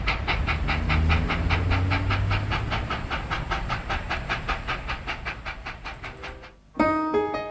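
Train running on rails, as a sound effect: a steady, loud chugging rhythm of regular chuffs with a continuous hiss, gradually softening over about seven seconds before cutting to a brief tonal sound at the end.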